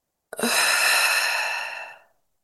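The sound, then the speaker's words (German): A single deep inhale during a guided mindfulness check-in: one long, steady, breathy intake lasting under two seconds, clearly audible and alone, tapering off smoothly at the end. “Mal einatmen.”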